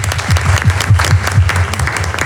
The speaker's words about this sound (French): Boris, qu'on va accueillir sous un tonnerre d'applaudissements